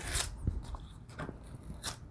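Paper torn by hand while making a greeting card, heard as a faint, rough rasping with a few short scratchy bursts.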